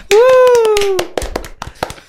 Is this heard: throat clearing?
no